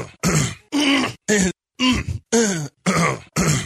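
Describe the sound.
Two men clear their throats over and over: seven loud, voiced, gravelly throat clears come in quick succession, each with a short groaning pitch glide, separated by brief silent gaps.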